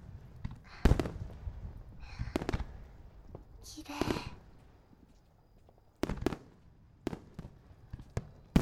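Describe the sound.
Summer fireworks go off in scattered, sharp pops and bangs at uneven intervals, with a brief hissing crackle midway. They are fairly faint overall, with several quick cracks bunched toward the end.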